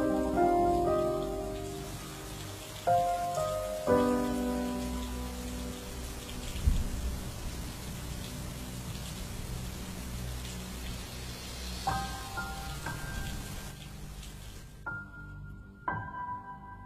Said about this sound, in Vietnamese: ngoài trời vẫn cứ mưa.